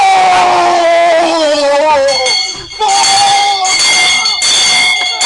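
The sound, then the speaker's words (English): A football crowd roaring as a Ghanaian club from Accra scores its second goal. A loud, sustained mass of cheering carries wavering horn-like tones, dips briefly in the middle, then surges again. “that's the sound of Accra Heart of Oak scoring a second goal.”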